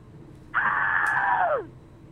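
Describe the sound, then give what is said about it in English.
A person screams for a screaming contest over a phone line: one loud, sustained, high scream lasting about a second that drops in pitch as it trails off. “So I can just scream right now.”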